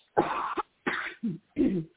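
Coughs from a tickle in the throat: a few harsh, throaty bursts in quick succession with short gaps between them, the last one rougher and more like a throat clearing. No talk around them.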